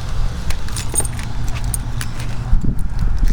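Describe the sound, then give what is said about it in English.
Keys jangle with scattered clicks and rustles as someone gets out of a car, over a steady low rumble of the vehicle, with no talking. “All right, let's get out of the car here”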